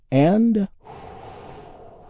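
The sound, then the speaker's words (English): A big, deep healing breath taken in during a guided relaxation exercise: after a short voiced sound, a soft, breathy rush of air is drawn in steadily for over a second. “taking a big, deep, healing breath all together”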